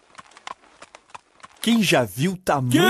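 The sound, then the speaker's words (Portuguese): Hooves clip-clop lightly as a farmer's horse-drawn cart loaded with seeds approaches on the road, a quick run of faint, irregular taps before a voice starts talking over it. “Tem alguém vindo aí! Primeiro, veio um fazendeiro com uma carroça carregada de sementes que levava para a moagem na usina.”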